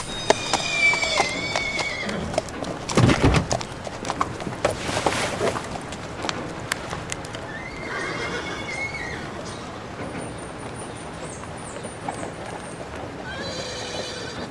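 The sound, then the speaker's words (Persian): A horse neighs with its hooves clopping as it carries a rider out of a stable. A few loud whinnies rise over steady hoof clatter, with no talk. “دانیال سوار بر اسب از استابل میاد بیرون.”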